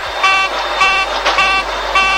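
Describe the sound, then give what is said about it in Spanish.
Cockpit takeoff warning horn on a jet, sounding because the flaps are not set: four loud honking tones repeat at a steady, even interval. “Tenés una alarma que es un cuerno. Es tú, cuando no pones los flaps. Y los jets sin flaps no despegan.”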